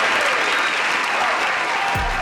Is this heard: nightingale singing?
no

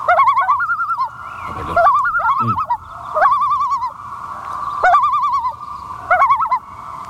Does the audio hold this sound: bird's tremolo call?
yes

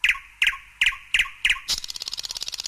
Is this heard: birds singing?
yes

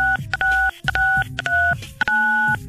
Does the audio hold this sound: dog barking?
no

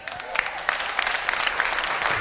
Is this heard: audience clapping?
yes

